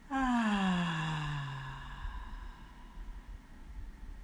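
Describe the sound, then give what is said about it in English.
A slow, deep voiced exhale during a guided breathing exercise: a sighing breath out that starts strong and slides gently downward in pitch over about two seconds, then thins into faint, quiet breath noise. “Once again, deep breath in. And out.”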